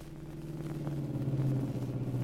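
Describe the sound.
Low, steady engine rumble of a car on the road, a droning hum with a faint mechanical flutter that grows slightly louder over a couple of seconds.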